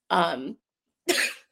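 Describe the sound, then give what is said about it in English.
A few harsh coughs from a person whose voice is hoarse from screaming over pep bands. The coughs come as short, raspy bursts separated by silence, the last one cut off at the end. “I'm trying to avoid coughing from screaming over the pep bands.”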